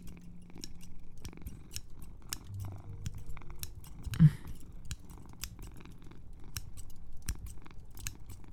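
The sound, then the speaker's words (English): Scissors snipping again and again in a steady run of crisp, thin metallic cuts across the whole stretch, with one heavier knock near the middle, over a faint low hum. “while I'm making this scissor sounds”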